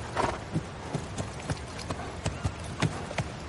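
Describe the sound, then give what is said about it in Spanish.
Horse hooves clip-clopping as a rider crosses a snowy field, many soft, muffled thuds in an uneven walking rhythm, fairly faint. “De día, Sandor cruza a caballo un campo nevado.”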